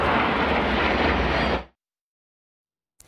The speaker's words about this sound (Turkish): Uçakların duman atarak tırmanış, dönüş ve alçalma hareketlerini yapması izleyenleri hayran bıraktı.